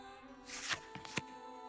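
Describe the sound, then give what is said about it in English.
A tarot deck is shuffled during a fortune-card reading. A soft riffle is followed by a few sharp snapping flicks, over a faint steady tone. “feel your energy flow into the cards.”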